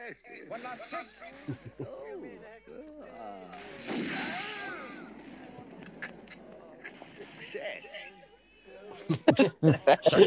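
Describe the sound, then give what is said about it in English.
Gunfire from the 1974 film Zardoz comes as a rapid burst of sharp shots near the end, after a long stretch of people talking. “Sorry, watching people get shot.”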